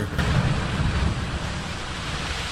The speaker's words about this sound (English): Oh, here come some waves now.